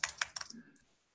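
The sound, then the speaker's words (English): Typing on a computer keyboard: a quick burst of several sharp, clicky keystrokes that thin out and fade into quiet. “I'll type it in here.”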